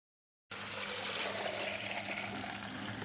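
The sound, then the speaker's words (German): Raw milk pours steadily from a shiny milk tank into a bottle, a continuous gushing, trickling flow that starts after a brief silence and runs evenly to the end with no talk. “Da fließt sie, die Rohmilch.”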